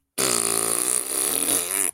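A single long, loud fart buzzes as a sustained, reedy tone for well over a second, then cuts off and ends with one short extra sputter.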